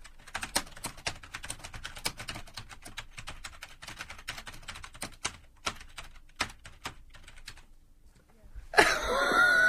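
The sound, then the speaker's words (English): Computer keyboard typing: many quick, irregular clicks of varying loudness in bursts, with a louder sound cutting in at the very end. “I'm just going to type something on the screen there.”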